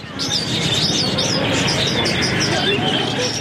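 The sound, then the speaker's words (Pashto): Birds chirp and pigeons or doves coo at a bird market in the heart of Kandahar city. Many high, quick chirps run without pause over a dense bed of lower sound, with voices mixed in. “د کندهار ښار په زړه کې د مرغانو دی بازار کې سلګونه کسان د مرغانو کاروبار کوي”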